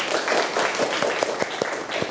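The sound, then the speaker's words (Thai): A class claps for a student after a classroom answer: a brisk, continuous patter of many hands lasting about two seconds, with several sharper claps poking through the steady clatter. “ปรบมือให้ดนยาหน่อย”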